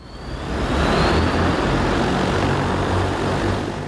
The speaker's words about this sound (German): Es ist der ganze Stolz des chinesischen Unternehmens Ehang, das eigene Flugtaxi.